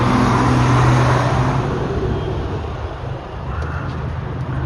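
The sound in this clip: Jeeps driving make a steady engine rumble and road noise, a broad continuous drone with a low hum that eases slightly partway through.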